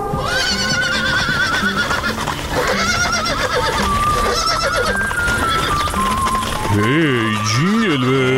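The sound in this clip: A horse neighs as cowboys ride up, a loud, wavering whinny rising out near the end over a dense, busy bed of music-like sound.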